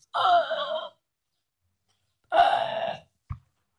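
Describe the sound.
A person imitating drowning gasps for air: two long, breathy, strained gasps separated by a pause, then a short cough-like catch at the end, each loud against silence.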